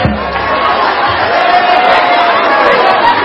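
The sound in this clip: A loud crowd cheers and whoops for a woman who has spoken, a thick, continuous roar of voices that stays strong for the full three seconds.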